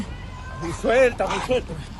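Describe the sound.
Dog whimpering and yelping during a violent scuffle, its high, wavering cries rising and falling in short bursts, mixed with people shouting over it.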